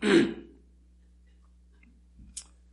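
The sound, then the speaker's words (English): A person at the tail end of a cold clears their throat once in a short, rough burst at the start. Near-silence follows, with a faint click near the end. “Please excuse the clearing of my throat. I'm at the tail end, I trust, of a cold, so I apologize for that.”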